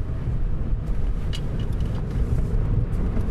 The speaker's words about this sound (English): I've got the roof off and we're rolling along now.